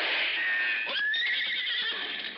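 A horse whinnies in one long, loud, shrill neigh that quavers and wavers in pitch, heard alone with no talk.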